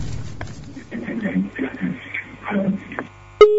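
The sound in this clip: A phone call line cutting off during a live call-in: a thin, muffled voice over the line, then an abrupt loud click followed by a steady electronic tone.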